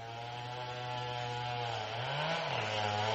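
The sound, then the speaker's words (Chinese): Chainsaw felling trees in a forest: a faint, steady droning engine whine holds an even pitch, then briefly rises before settling back down near the end. “Richard 在森林里听到伐木的链锯声音， 他就朝着链锯声音的方向走去，打算探出个究竟。”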